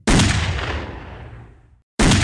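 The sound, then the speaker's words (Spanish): Gunshots fired into the air from a pursuing police patrol: a loud, sharp blast rings and decays for nearly two seconds before a second blast cuts in. “Pues esta venía tirando tiros. Tiros al aire. Uno tras otro. Parecían que eran varios los que tiraban.”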